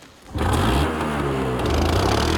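A scooter engine as the rider pulls away, kicking in abruptly after a quiet moment and holding a loud, steady buzzing drone to the end.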